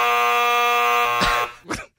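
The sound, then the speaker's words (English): A buzzer sounds a loud, harsh, steady electronic tone for over a second before cutting off, followed by a brief burst of noise. “The buzzer's getting to work out. It's not ready. It's not ready.”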